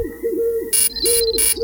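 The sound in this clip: A radio app's alarm-clock wake-up sound with birdsong: soft, repeated dove-like cooing runs under three bright, loud bursts of bird chirping that come in quick succession.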